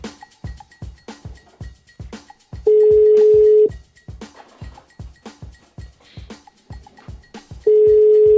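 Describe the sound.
A phone number is dialled on a smartphone: quick, regular clicking taps, then a long steady ringing tone, more ticking, and a second identical ringing tone.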